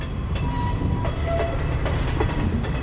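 A train passes along a railway line beside a motorway, giving a steady, dense rolling rumble with faint rhythmic clicks of the wheels throughout.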